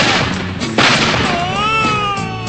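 A gunshot sound effect, fired to rouse a sleeping man, gives one loud sharp bang partway through, then wavering, whining tones that rise and fall.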